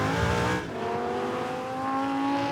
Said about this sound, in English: The drifting Lamborghini was based around the Lamborghini Huracan standard 5.2 liter V10 engine.